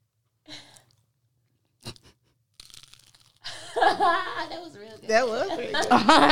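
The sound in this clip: Crunching as someone eats crunchy food: a few short, dry bursts separated by silence, followed by voices talking and chuckling loudly over the last half.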